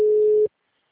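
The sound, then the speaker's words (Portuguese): Ringback tone on an outgoing phone call: one steady, low-pitched electronic tone that holds for about half a second and then cuts off into silence. “Daqui eu tô tentando entrar em contato, tô ligando pra ela aqui.”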